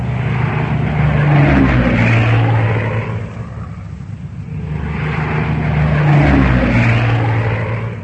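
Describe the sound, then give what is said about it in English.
Squadrons of propeller aircraft flying in formation over an airfield produce a loud, heavy engine drone. It swells, eases off through the middle, then builds again to a full roar, with no voices. “And then the whole formation flies off toward a neighboring airfield where the bombers are taking off.”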